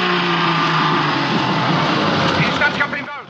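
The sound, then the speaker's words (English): Engines of a tank and an open-top armored vehicle full of men roaring off at night: a loud, sustained mechanical rumble with a low droning hum, joined by wavering higher tones near the end as the sound begins to thin. “Behind the tank is an open-top armored vehicle full of men. The two vehicles roar off into the night.”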